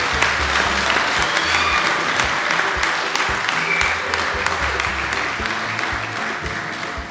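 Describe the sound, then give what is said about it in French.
An audience at an evening worship service applauding loudly, a dense, steady wash of clapping that holds at the same strong level throughout, with no voice standing out. “si nous aimons Jésus, acclamons très fort pour lui”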